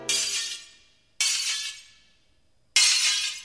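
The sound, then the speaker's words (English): Window glass smashing as a vandal breaks it: three separate loud crashes, each a sharp impact followed by a bright spray of shards that tinkles and fades before the next break. “a vandal gave to me window smashing”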